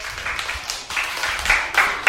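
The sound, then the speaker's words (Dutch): Applause for a correct answer in a children's quiz game: a short burst of clapping that rises and falls in uneven waves and grows louder toward the end. “Applaus.”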